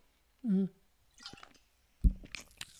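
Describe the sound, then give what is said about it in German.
Someone takes a sip of a drink: a brief low hum, then soft wet clicks, a gulp and small squishy mouth noises, all faint and close. “Ich muss mal eben einen Schluck trinken.”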